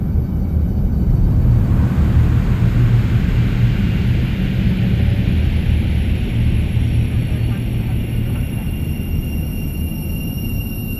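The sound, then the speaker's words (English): Spaceship engines roar during takeoff as a dense, loud rumble that holds steady for the whole stretch and eases slightly toward the end. “Ladies and gentlemen, we've been granted clearance for an immediate takeoff.”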